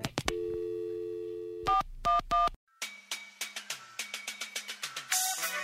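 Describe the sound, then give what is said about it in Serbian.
A telephone call to Australia being dialled: a few clicks, then a steady dial tone and three touch-tone beeps. After a brief silence come many short, evenly repeated tone pulses, ending in a burst of hiss. “odmah je telefonirala sestri u Australiji.”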